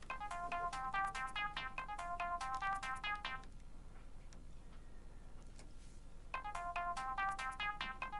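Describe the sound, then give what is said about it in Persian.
A telephone rings with a bright, rapid melodic ringtone of repeating beeping notes. One long burst, a pause of about three seconds, then the melody starts again, faint and with no speech. “بله بله بله آقا محسن، میبینم داری زنگ میزنی.”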